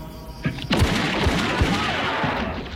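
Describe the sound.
Gunfire: a few sharp cracks in quick succession, then a sustained noisy rattle broken by several low thuds.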